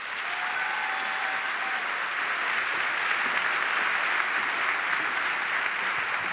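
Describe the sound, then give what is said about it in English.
A church audience applauds as a guest speaker is welcomed. The clapping is sustained and even, stays loud and constant to the end, and has no talking over it. “they're clapping because they just found out I'm not preaching today”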